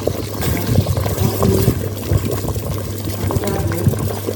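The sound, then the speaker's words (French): Sweet potatoes simmer gently in a pot of water, giving a soft, continuous bubbling and burbling over a low, steady hum. “Les patates douces sont en train de cuire là tout doucement.”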